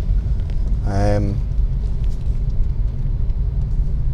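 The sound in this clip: Low, steady rumble of a Nissan Leaf electric car pulling slowly into a gate, broad road and tyre noise throughout, with a brief voice near the start.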